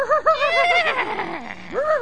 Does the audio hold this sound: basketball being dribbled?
no